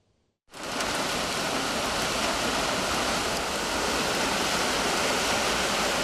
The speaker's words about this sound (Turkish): Yağmur aniden bastırdı. Dakikalar içinde sokaklar göle döndü.